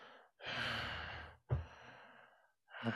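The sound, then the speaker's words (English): A man imitates an action-film actor's heavy breathing with a few long, raspy, breathy exhales and inhales in a rough, uneven rhythm, alone without speech. “it always freaked me out how he breathes.”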